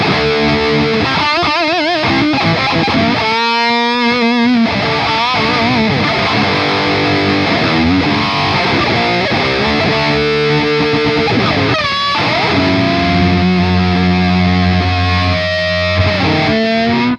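A heavily distorted electric guitar plays loudly through an Engl amplifier. Chords and quick single-note phrases give way to long, sustained ringing notes near the end.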